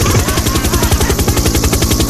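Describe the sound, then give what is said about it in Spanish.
A helicopter in flight gives a loud, steady, rapid rotor chop over a dense engine roar that continues throughout. “Vamos a seguir en el helicóptero. Y bajemos luego el helicóptero que está muy caro el combustible.”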